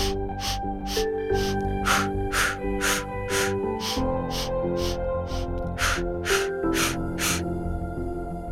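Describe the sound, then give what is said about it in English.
Short, sharp breaths drawn in and pushed out in a quick, even rhythm during a breathing exercise, many puffs repeating over soft sustained musical tones. “This one is usually mine, and we start with 4 short breaths in and 4 short breaths out.”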